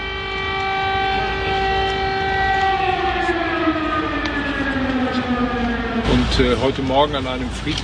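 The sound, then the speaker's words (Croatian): An air raid siren wails over Kyiv on a quiet Sunday morning, a loud sustained tone whose pitch slowly falls, before a voice begins talking over the fading sound. “Ovog mirnog nedjeljnog jutra u Kijevu su se oglasile sirene.”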